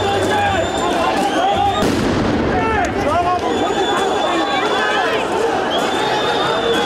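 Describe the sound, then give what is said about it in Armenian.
Police firing tear gas at protesters during street clashes: sharp pops and bangs over a loud crowd with shouting and whistles, a sustained roar of many voices throughout. “Իրավապահները պատասխանեցին արցունքաբեր գազի կրակոցներով և սկսեցին առաջ գնալ։”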